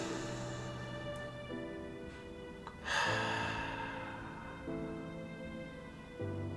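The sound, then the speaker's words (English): A single deep breath drawn in by people at a poetry reading swells briefly midway, breathy and moderately loud over soft, sustained musical tones that shift pitch now and then. “We will ask that you close your eyes. Take a big breath in.”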